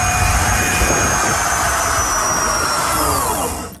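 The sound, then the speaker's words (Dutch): Jet-engine roar from a converted skinny bike with a throttle, a thin-tired fatbike-style bicycle pushed to 120 km/h by police: a loud, steady rushing blast with a high whine whose tones drift slightly lower, cutting off abruptly at the end. “Dat is helemaal omgebouwd. Een straalmotor ingezet.”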